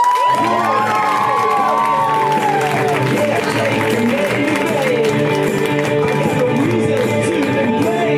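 A comedy-show audience cheering and applauding as a comedian is welcomed to the stage: loud, dense, unbroken clapping mixed with shouts and whoops that holds at full strength for about eight seconds.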